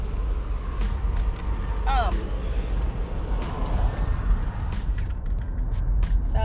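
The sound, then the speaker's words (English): A car being driven on the road, a steady low rumble and hiss of road noise that runs unbroken throughout. “So, now that I'm driving, people get furious on the road.”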